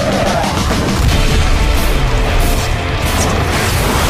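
Bombing explosions in a video game form a dense, loud roar of crashing blasts and booms that runs without a break and has no single distinct hit.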